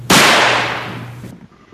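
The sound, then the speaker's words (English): A firework goes off indoors in a store bathroom. A sudden loud burst turns into a harsh, sustained hissing roar that slowly fades, then cuts off abruptly, leaving faint low residue. “Yeah, it's starting to get kind of smoky because I'm lighting fireworks in here.”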